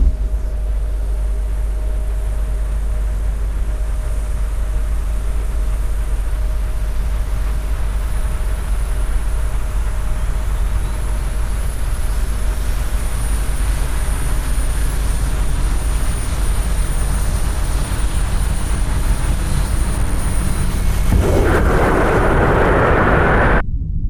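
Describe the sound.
An aircraft flies over the ocean with a steady, droning engine hum that holds for about twenty seconds, then a louder rushing burst of noise near the end.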